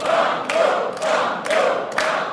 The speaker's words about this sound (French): Le public va scander, évidemment, va vous encourager.